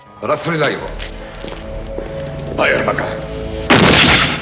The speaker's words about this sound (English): In the interrogation room, a prisoner's shot.